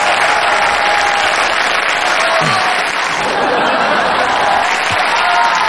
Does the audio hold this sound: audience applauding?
yes